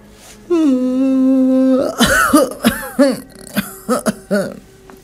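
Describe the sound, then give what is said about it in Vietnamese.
An old woman yawns in a long, drawn-out voiced groan of steady pitch, then breaks into a string of harsh, raspy coughs in uneven bursts, loud and alone. “Bà ngáp rồi ho lên sù sụ.”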